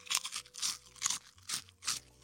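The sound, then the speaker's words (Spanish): Crisp, loud crunching comes from bites of a fried pork rind (chicharrón). A few brittle crunches follow one another in a steady chewing rhythm. “No manches, me estoy comiendo un chicharrón. ¡Qué delicia!”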